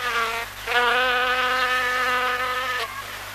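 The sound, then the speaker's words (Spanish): An insect buzzing sound effect: a loud, high, mosquito-like whine with a rich harmonic buzz that wavers slightly in pitch and holds steadily for about three seconds, heard alone. “¿Pero qué es eso? ¿Acaso no pidió un ruido de insecto?”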